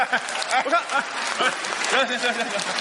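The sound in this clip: Audience applause at a comedy stage show, a dense, steady patter of clapping that runs throughout while a voice talks over it.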